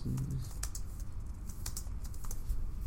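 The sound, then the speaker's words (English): Clatter of typing on a computer keyboard during a Google search: a rapid, irregular run of many keystroke clicks continuing steadily throughout, with a soft background hum. “If you guys hear some clitter clatter, that is me Googling something right now.”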